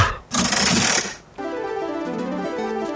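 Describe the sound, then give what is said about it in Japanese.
A ranking slot machine in a game spins with a loud, whirring mechanical burst lasting about a second. A steady run of bright electronic tones follows, with no talk. “ゲームランキングスロットを回していきましょう。”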